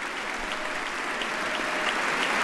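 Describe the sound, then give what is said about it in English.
Applause fills the House chamber during the State of the Union, a sustained, dense clapping from many hands that stays even and swells slightly toward the end. “and receiving a hearty round of applause for an amazing act of heroism in the New York subway system.”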